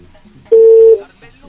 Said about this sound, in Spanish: Nos vamos con otra llamada telefónica.